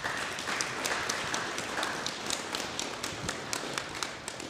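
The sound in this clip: Church audience applauding to welcome guests to the front, a sparse, moderately quiet patter in which many individual sharp claps stand out against a soft background hiss.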